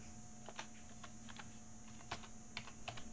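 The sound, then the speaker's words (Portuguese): A password being typed on a computer keyboard: a few sparse, separate keystrokes that click faintly over a steady electrical hum, with no talking. “Informe sua senha.”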